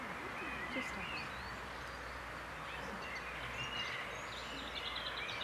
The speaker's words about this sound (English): Hear the birds?